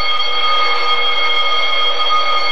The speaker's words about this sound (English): Just hold on. That's what this here alarm's for, you know.